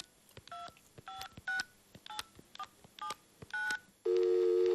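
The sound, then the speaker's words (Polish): Touch-tone dialing of a phone number at home: about seven short dual-tone keypad beeps in an uneven rhythm, then a steady, loud continuous line tone. “ty zadzwoń do Magdy.”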